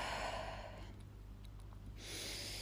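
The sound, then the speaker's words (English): Soft, slow deep breathing, airy and quiet, heard alone with no speech over it. “Let's take a deep breath.”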